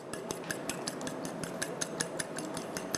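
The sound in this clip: Rapid, steady clinking of a utensil against a bowl as eggs are beaten with a tablespoon of seasoning, many light, even strikes in a continuous rhythm with no voices.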